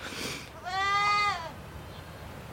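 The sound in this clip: A single drawn-out goat bleat from a dairy farm herd, a wavering nasal cry lasting just under a second, clear and moderately loud over a faint, steady background.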